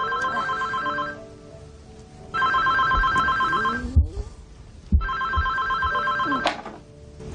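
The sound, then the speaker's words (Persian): A telephone bell rings loudly in three long, shrill bursts, with short quiet gaps and a few knocks between them. “صدا این تلفون چرا اینقدر بلنده؟ ساکت شو تلفون.”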